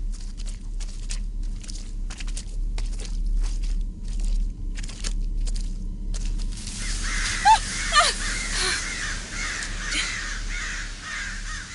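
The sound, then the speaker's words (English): Crows caw repeatedly outdoors, harsh calls coming in an irregular run. A faint low rumble and some crunching underneath them. “They're just stupid old crows. There are so many of them.”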